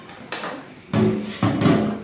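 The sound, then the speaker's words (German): A cooking pot of water boiling for spaghetti is lifted off the stove with a few metallic clatters and scrapes, some ringing briefly, in short bursts of moderate loudness. “jetzt kocht es schon ein bisschen. Jetzt will ich den Topf abnehmen.”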